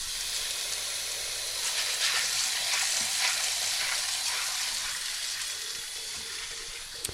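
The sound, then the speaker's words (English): Red beans being rinsed in a pot, heard as a steady, even hiss of rushing water with faint scattered clicks and no voices. “so i'm just going to put some some beans in a pot to soak Those are some red beans. I'm going to wash them a little bit.”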